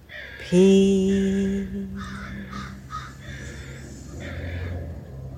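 Crows cawing: a few harsh, rasping calls in short bursts, fairly loud and without speech.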